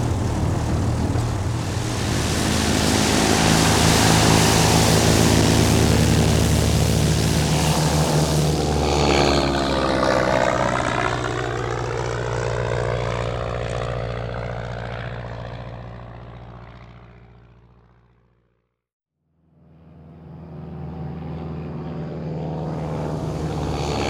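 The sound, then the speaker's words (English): Propeller airplane taking off: a loud, steady engine drone with a strong buzzing tone. Midway the tones shift and fade away to near silence, then engine noise rises again at the end. No voices. “Fasten your seatbelts for takeoff.”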